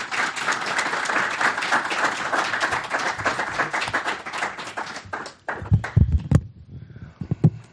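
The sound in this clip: An audience applauds to welcome guests: dense, loud clapping that holds steady for about five seconds, then drops off, leaving a few scattered claps and thuds.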